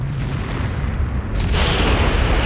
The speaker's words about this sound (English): The train explodes in a ball of fire, its engines and carriages toppling over the viaduct and plummeting down after Darius